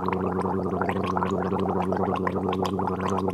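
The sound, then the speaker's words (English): Gargling sounds dubbed over a man talking in a video: a continuous wet, bubbly gurgle with a steady low hum beneath it, with no clear words coming through. “They cut a video of Steve Mnuchin talking, but they filled his mouth with gargling sounds”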